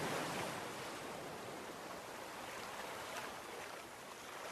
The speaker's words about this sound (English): You can't see the waterfall yet, but you can hear it.